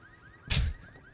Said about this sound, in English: Will it let me... we have to steal it. Alarm went off.